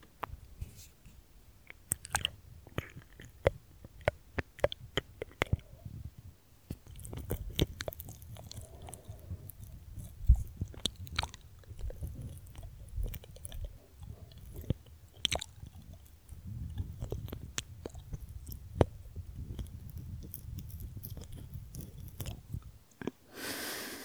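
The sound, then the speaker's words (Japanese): Wet licking and mouth sounds close to the ear: many soft squishy smacks, clicks and slurps in an irregular, continuous stream, fairly quiet, with no talking. “ずっと耳舐めしてほしいって言ってたもんね。”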